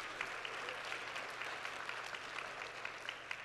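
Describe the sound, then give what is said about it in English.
An audience applauds grandparents with a steady patter of many clapping hands, even and unbroken throughout, fairly soft. “Give them a big hand. Give all those grandparents a big hand.”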